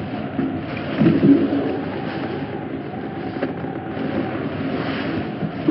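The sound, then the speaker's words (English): Wind blows in a steady, low, rushing roar that swells and eases slightly without ever stopping. “Wait a minute. Did you hear something? No, it's just the ruddy wind.”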